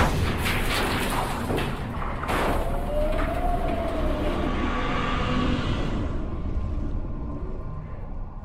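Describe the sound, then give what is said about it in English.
Elevator machinery in the elevator shaft of a theme-park ride gives a loud, continuous rumbling drone. A faint whining tone rises through the middle, and the higher hiss thins out near the end. “The elevator machinery in the cage.”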